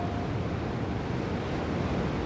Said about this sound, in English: Allow the wind, the distant roar of waves, and the image of blues, greens, and whites to soak into your mind, body, and soul.